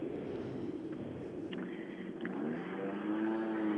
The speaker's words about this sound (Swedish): Eh, häftig bil, häftigt ljud.